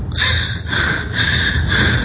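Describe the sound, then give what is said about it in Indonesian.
Strained, wheezy gasping of someone struggling to breathe with a suddenly tight chest. Several harsh, raspy breaths follow each other in quick succession, loud and without any speech. “Aku sulit bernafas.”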